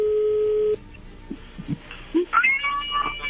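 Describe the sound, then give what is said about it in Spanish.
A telephone call being dialed and connecting: a steady electronic tone holds for under a second and cuts off, followed by quieter scattered clicks and brief high warbling chirps. “No haga ruido, ya entra la llamada.”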